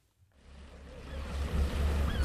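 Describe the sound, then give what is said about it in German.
A yacht motors out to sea from a harbour at a Breton fishing town, its engine a low, steady chugging rumble that swells after a brief quiet start, mixed with wind and water noise. “Eine britische Urlauberfamilie takelt ihre Yacht auf und tuckert zum Ausfährtchen hinaus aufs Meer.”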